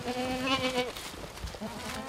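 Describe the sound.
Goats and sheep from a herd kept for landscape conservation grazing bleat softly. A few wavering bleats can be heard, with a long one early on and another near the end, over faint background noise.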